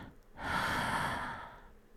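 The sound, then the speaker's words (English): A slow, deep breath drawn in through the airways during a guided breathing exercise: a single soft, airy inhale that swells, holds steady, then gently tapers off, with no talking. “Let's just breathe together. In.”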